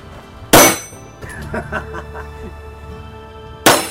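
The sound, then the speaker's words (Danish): Two sharp metallic dings from shots striking a steel shooting target, about three seconds apart, each a loud bright strike with a short ringing tail, and faint voices in between. “Rammer jeg? Ja, ja, det kan du høre på det ding.”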